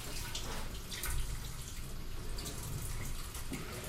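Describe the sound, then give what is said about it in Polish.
Water rushes and splashes through a colander as cooked food is drained, a steady, fairly loud pouring hiss with no talk. “gdzie mamy durszlak? O, jest. Odcedzam.”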